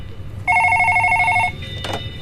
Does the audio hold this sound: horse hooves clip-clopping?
no